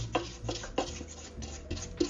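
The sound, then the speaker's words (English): Rubber spatula scraping down the sides of a stand-mixer bowl of creamed butter and sugar with vanilla, a few soft rasping strokes spaced unevenly, quiet and steady, over a faint low hum. “I'm also gonna take this opportunity to take my rubber spatula and scrape down the sides”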